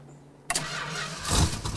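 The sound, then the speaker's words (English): A car engine cranks and catches abruptly after a quiet moment, then settles into a running idle. It swells louder with a brief rise in revs as the car pulls away. “With a last look in their direction, Dennis drives off with a preoccupied look on his face.”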